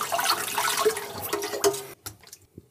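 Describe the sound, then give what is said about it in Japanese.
Tap water runs while blood is rinsed from raw chicken hearts, a steady splashing stream for about two seconds that cuts off abruptly, followed by a few faint drips and small clicks. “端っこの方にね、血合いが残ってるんですね。こういうのをささっと洗ってあげましょう。”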